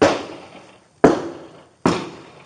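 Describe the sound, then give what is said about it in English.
Three loud shotgun blasts fired through a car's rear window, each a sharp crack followed by a long decaying tail, spaced roughly a second apart with no voices. “Shooting out the rear window toward my direction. Deputies ducked for cover behind trees. They just busted out the window in the back. Stand by. Female has a shotgun in her hand.”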